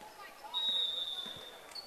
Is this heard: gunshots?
no